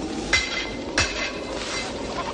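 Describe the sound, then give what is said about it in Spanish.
A blacksmith hammers on an anvil in a medieval monastery courtyard: two bright, ringing metallic strikes about half a second apart, each leaving a short shimmering ring, with no voices. “El herrero golpea sobre el yunque.”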